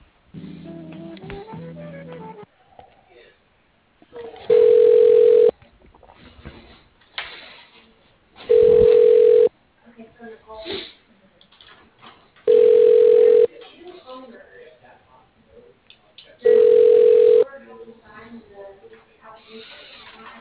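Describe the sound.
Telephone line tones while a caller waits on hold: four loud, steady, one-second beeps recur about every four seconds, with fainter, muffled line sounds in between.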